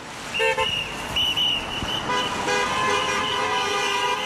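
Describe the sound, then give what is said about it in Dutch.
Car horns honk from drivers passing striking doctors outside St Thomas' hospital in London: several short, bright toots, then longer sustained blasts that overlap, over a steady wash of traffic noise. “Bij het St. Thomas ziekenhuis in Londen passeren luid toeterende automobilisten de stakende artsen om zo de stakers een hart onder de riem te steken.”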